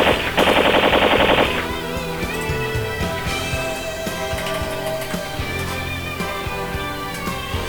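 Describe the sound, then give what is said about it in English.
A loud, rapid burst of machine gun fire as a sound effect, lasting about a second, followed by a steady tonal backdrop with no further shots. “And then we mow them down with the machine guns.”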